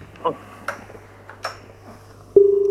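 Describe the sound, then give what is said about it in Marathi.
A telephone line tone for an incoming call sounds at the end as a steady low-pitched tone, loud and clear, following a few faint clicks and quiet talk. “आपण दुसरा phone घेऊया.”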